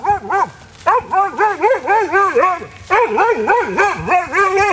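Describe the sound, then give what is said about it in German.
A hunting dog bays at a wild boar with many high, yelping barks in quick, uneven bursts, keeping up a loud, insistent chorus that pauses briefly twice before resuming. “Und so tönt das, wenn ein Hund ein Wildschwein jagt bzw. anbildet und probiert zu jagen, sodass der Jäger dann schlussendlich das Wildschwein auch schiessen kann.”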